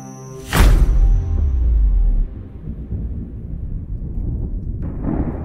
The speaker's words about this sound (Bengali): আজকে ঘুম ভেঙেছে প্রবল বজ্রবিদ্যুতের আওয়াজে উঠে দেখি পুরো জঙ্গল ভয়ঙ্কর রকমের শান্ত আর মাঝে মাঝেই গম্ভীর মেঘগুলো